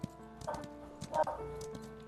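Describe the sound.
A trained horse's hooves clip-clop as it walks away, a steady series of hoofbeats on a hard surface lasting a couple of seconds.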